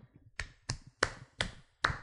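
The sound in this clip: Five sharp, crisp claps ring out at an uneven pace, each one isolated with near silence between.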